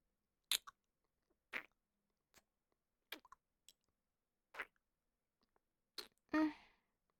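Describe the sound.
Kissing: soft, wet lip smacks and mouth clicks come in a handful of separate quiet bursts with silence between them, ending in a longer, slurping sound.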